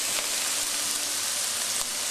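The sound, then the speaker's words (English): Onions and garlic sautéing in a hot frying pan give a steady, even sizzling hiss that holds at a constant level throughout, with no talk. “Just make sure your frying pan is hot. Add my onions because you want your onions sauteed a little bit before you add any of the other ingredients. And also the garlic.”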